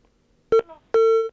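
Two telephone line beeps as a live call-in to an Eritrean satellite TV station connects: a short tone, then a longer steady one at the same pitch.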